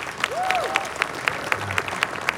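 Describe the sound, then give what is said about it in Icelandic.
Audience applause at a summer jazz event on stage: a steady bed of clapping with sharp individual claps standing out at a quick, fairly regular pace. “Já, já, klöppum fyrir því.”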